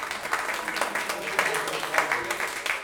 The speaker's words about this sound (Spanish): Un aplauso aquí